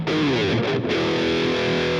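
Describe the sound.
An electric guitar played through a distortion effect gives out loud, thick, buzzing sustained notes that dip briefly near the middle before ringing on steadily.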